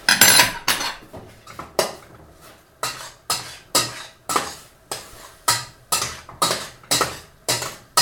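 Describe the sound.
Ingredients with mushrooms are stirred in a bowl for a pizza, making many scraping, clinking strokes in a steady, even rhythm with no voices.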